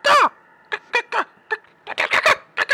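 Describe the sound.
A human voice imitates the cawing of two gigantic birds in a tabletop role-playing game, opening with one long harsh caw followed by many shorter, rasping calls in an uneven rhythm.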